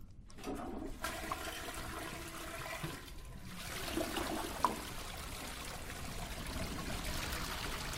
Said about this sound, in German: Das klingt nach größeren Mengen Wasser.